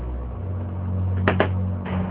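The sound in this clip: Two quick, muffled knocks on a door late at night, fairly faint against a steady low hum.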